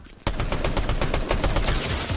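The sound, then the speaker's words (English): Rapid gunfire from a rare gun in the Fortnite video game: a loud, dense stream of sharp shots that starts abruptly and continues steadily without pause. “In that moment, I had gotten what I thought was my very first Fortnite kill.”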